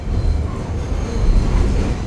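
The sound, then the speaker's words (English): A New York subway train rumbles along in a loud, continuous low roar with a rattling, clattering texture and no voices over it. “We transfer to one more train, get off near Rockefeller Center, and walk the last few blocks to Jared's place.”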